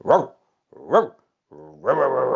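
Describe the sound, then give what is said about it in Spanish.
A dog barks twice in sharp, separate bursts, then lets out a longer, drawn-out bark that trails into a growling whine. “Era un perro.”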